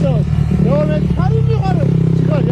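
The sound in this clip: A motorcycle climbs a snow-covered 3100-metre mountain in Erzincan after the year's first snowfall, its engine a steady mid-pitched drone running beneath a voice that speaks throughout.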